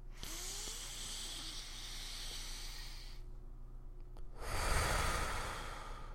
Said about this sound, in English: Take deep breaths. Here, let's do one together.